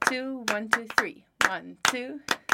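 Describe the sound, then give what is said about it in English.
A group clapping a steady rhythm, sharp claps landing at regular intervals while a voice talks over them throughout. “So I would like to invite you to clap, so all the listeners, you can actually try and join us. So just start clapping and then see if you can do a rhythm”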